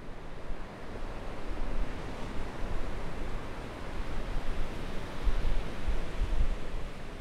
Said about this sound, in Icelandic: Úti fyrir ströndinni brotnaði frægast alda heims, Trestles.